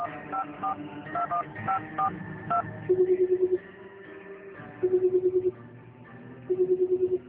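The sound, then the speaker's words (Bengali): Telephone keypad tones sound as a number is dialed from a hotel room: a quick run of short beeps, then three pulsed ringing bursts with pauses between them. “হোটেলে এসেই phone করে আনিস চৌধুরীকে সব খুলে বললেন।”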